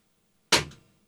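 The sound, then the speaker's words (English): A single sharp pop of an airsoft gun fired into a trash can, a sudden bright crack that decays quickly, heard alone with no talking. “Put some money on the table, and I'll take a shot at it. Like, take a shot into the trash can. Okay, everybody cover your eyes.”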